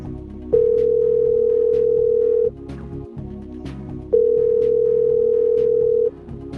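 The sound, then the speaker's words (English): Telephone ringback tone on an outgoing call to Puerto Rico: two steady, level tones of about two seconds each, separated by a pause of roughly one and a half seconds, over a faint murmur of background noise. “Why am I letting the phone ring that many times?”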